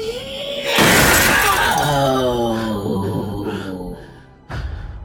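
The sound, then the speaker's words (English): First-floor windows burst outward in a loud, sudden crash of shattering glass that trails off into a fading clatter, followed by a second sharp crash near the end. “The shrill sound, coupled with the force of her voice, caused all of the first floor windows to burst outwards.”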